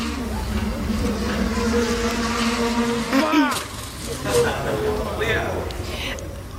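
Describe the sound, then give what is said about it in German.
A delivery drone launched in Russia, meant to carry a 2 kg package over 35 km, buzzes with a steady insect-like whine that wavers and shifts pitch partway through, under voices and background noise. “Das ist die Drohne, die kürzlich in Russland gestartet ist. Die sollte 35 Kilometer fliegen und ein 2-Kilo-Päckchen transportieren, aber leider ist das passiert.”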